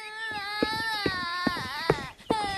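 A young girl cries after falling while climbing out of a wooden barrel and hurting her mouth: a sustained, high, wavering wail broken by several sharp sobbing catches.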